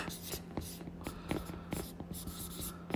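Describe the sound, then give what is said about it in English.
Pen writing on a whiteboard, a series of many short squeaky scraping strokes in an uneven rhythm, fairly quiet over a faint low hum. “I'm going to get my pen out. I got a whiteboard here, as always. And I'm going to write social media.”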